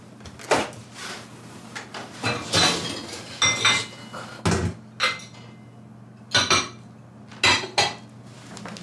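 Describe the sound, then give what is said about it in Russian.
Dishes and cutlery clink and rattle as someone opens a dishwasher in a kitchen. Many sharp clattering knocks and rattles come in uneven bursts, with one heavier thud in the middle. “В это время девушка пытается открыть посудомоечную машину.”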